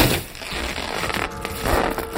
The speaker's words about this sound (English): The curved tip of a bloody blade pierced the curtain and sliced down it.